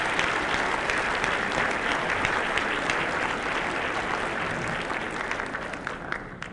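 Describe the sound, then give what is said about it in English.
Audience applause greets new staff members at a campus welcome gathering: dense, steady clapping from a large group that holds an even level throughout and tapers slightly toward the end, with no voices standing out. “Please join me in welcoming them to New York.”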